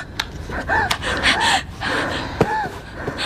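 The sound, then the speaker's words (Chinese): A frightened person breathes deeply and heavily, drawing a few loud, voiced gasping breaths with ragged exhalations between them. “深呼吸，深呼吸， 我不想死啊。 深呼吸， 我 深呼吸，”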